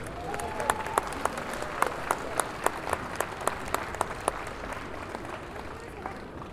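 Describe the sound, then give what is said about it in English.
Audience applause welcoming the third and final contestant at a contest: sustained clapping with sharp, regularly spaced claps standing out, and a voice speaking over it. “Y'all please put your hands together.”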